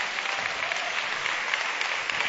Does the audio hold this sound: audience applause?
yes